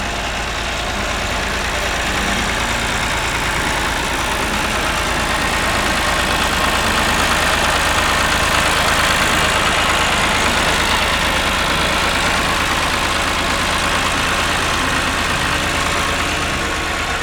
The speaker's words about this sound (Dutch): Ouderwetse stinkdiesel. Lekkere oude Volvo trekker.